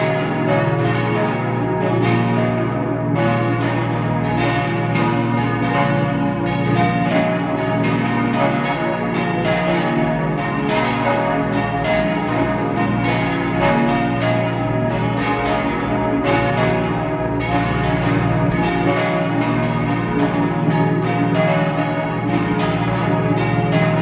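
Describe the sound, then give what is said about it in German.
Parish church bells in Wörgl, North Tyrol, ring at noon in a dense, continuous peal of overlapping strokes. The clang stays steady and loud throughout, with no voices. “Es ist 12 Uhr. Sie hören die Glocken der Stadtpfarrkirche zum heiligen Laurentius in Wörgl in Nordtirol.”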